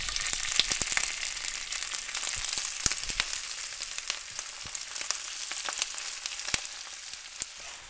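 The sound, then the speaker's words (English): Myeok seaweed fries in hot sesame oil with ground ginger and garlic in a cast-iron skillet, giving a steady hissing sizzle studded with many sharp pops and crackles, with no talk. “Throw the sesame oil in the cast iron skillet and getting it hot, and then I'm going to add the ginger and the garlic ground up. Then we can throw the myeok in. Here it goes.”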